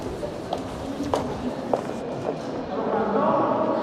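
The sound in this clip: Footsteps walk through the EU Council building, past lifts toward a large hall, as a few evenly spaced steps heard over a busy background of voices.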